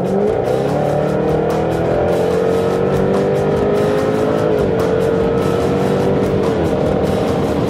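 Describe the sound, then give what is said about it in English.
A 495-horsepower V8 race car roars continuously while accelerating toward 140 mph on a racetrack straight, heard on board. Its steady, loud engine note climbs gradually, then steps down once midway. “what you hear is 495 horsepower V8 that's pushing us up to 140 miles an hour on that straight.”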